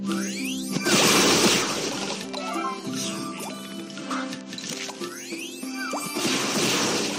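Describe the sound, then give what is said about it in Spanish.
Sound effects from the video game Candy Crush play as a busy, continuous stream of bright chimes, swooshes, quick rising sweeps and crashing bursts, with no one speaking. “¿A qué te suena este sonidito? Es el Candy Crush.”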